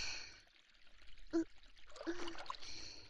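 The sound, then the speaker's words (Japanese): Hot water pouring over hair as it is rinsed during a hair wash: a faint, continuous trickle with a couple of brief, louder splashes. “それではお湯で流します。”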